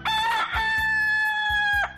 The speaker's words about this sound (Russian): Я проснулась от радостного кукареку и выключила будильник на комике.